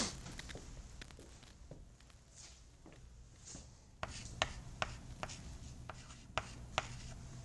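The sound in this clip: Faint writing: soft scratchy strokes with a few sharper taps, scattered irregularly, with no voices.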